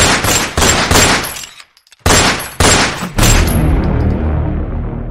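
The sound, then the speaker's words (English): Loud gunshots from a robbery shooting: several sharp, powerful blasts in two rapid clusters separated by a brief silence, the final shot trailing off in a long decay. “he was killed by the intended thieves with 7 shots to his body”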